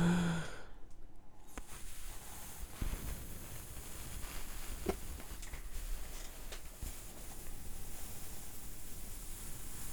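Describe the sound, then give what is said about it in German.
A long, unbroken exhale made with circular breathing, an airy, breathy hiss that holds steady for about ten seconds with a few faint clicks and no speech. “Ich werde jetzt zum Abschluss der Sendung nochmal zirkular ausatmen.”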